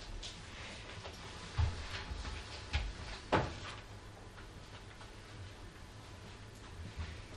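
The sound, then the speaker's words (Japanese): Doors are shut during a church service, giving a few dull wooden knocks and thumps in quick succession over a steady background hiss, with the sharpest knock coming last. “それでは戸を閉めていただきたいと思います。”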